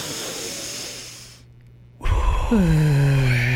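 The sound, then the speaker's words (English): A deep breath drawn in through the nose during a guided breathing exercise: a steady, airy hiss lasting over a second, a short pause, then a louder voiced sigh falling in pitch. “Through the nose. And out the mouth. Yeah, let that negativity go. Mm. In with your nose.”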